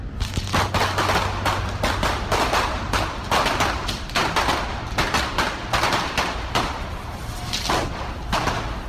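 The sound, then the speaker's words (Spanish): Wooden planks burning in a fire crackle loudly and densely, with a rapid, irregular stream of sharp pops and snaps running throughout. “pues nada, cojo estos tablones y le pego fuego.”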